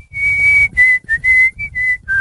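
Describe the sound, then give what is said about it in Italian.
A person whistles a melody in a studio: clear, steady, high whistled notes, one long held tone followed by several shorter ones with brief gaps, loud over a soft low rumble. “Presentati con un fischio, come c'è Alvaro Vitali.”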